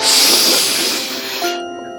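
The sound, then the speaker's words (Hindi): A long, breathy hiss of a deep breath taken during a guided breathing exercise, loud and steady before cutting off abruptly, leaving a faint tone. “लंबी सांस अंदर, लंबी सांस बाहर, एक बार और, सांस अंदर,”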